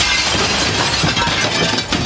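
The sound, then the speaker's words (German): A 4 mm standard glass window pane being smashed in: a loud, dense crash of shattering glass that fills the whole two seconds with continuous bright, gritty noise and fine tinkling. “Na dann schlag ich die Scheibe doch einfach ein.”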